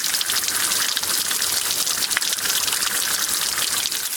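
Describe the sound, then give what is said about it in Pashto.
Fresh water rushes steadily through a narrow roadside channel near Kajaki, a loud, continuous splashing hiss with no pauses. “د سړک پر غاړه په یوه نرۍ ویاله کې تازه ورنې اوبه بهیږي”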